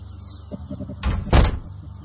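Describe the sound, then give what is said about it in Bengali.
A door being shut: a brief rush of movement swells into one loud, dull bang with a short rattle, then quiet returns. “এ কি দরজা বন্ধ করলা কে?”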